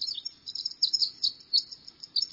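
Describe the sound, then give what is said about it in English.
A winter wren, a tiny songbird, sings a rapid, high-pitched stream of tinkling chirps and trills. The song is steady and continuous through the whole clip. “It might just be this tiny songster, the winter wren.”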